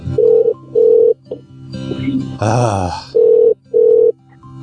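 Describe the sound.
A telephone rings in two pairs of steady, mid-pitched electronic bursts, four rings in all, while a person's groaning voice fills the gap between the pairs.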